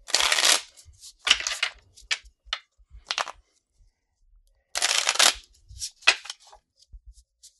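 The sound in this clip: Playing cards being shuffled during a dungeon-crawl card game: two long, loud riffling bursts with many short taps and clicks of the deck scattered between them, no voices.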